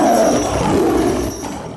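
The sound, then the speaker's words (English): Loud, rough growling roar from a lion cub and a tiger cub chained up and being tossed a hunk of meat, a continuous raspy snarl that holds steady, then eases slightly near the end. “tosses it to a lion cub and a tiger cub, which are chained up nearby.”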